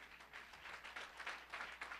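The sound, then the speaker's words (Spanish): Church audience clapping in praise during a service, a faint, rhythmic patter of hands beating a quick, even tempo throughout. “Puede tomar su lugar, hermano, y dele palmas al Rey con todo su corazón.”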